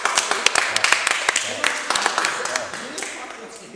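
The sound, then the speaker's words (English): A live studio audience applauds, dense rapid clapping that continues throughout and fades slightly toward the end, with a voice speaking over it. “Give it up for Jahari the Eldari.”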